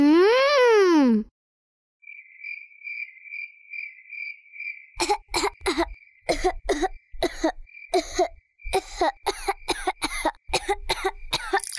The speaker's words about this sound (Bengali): আপনার হঠাৎ এত কাশি কেন হচ্ছে?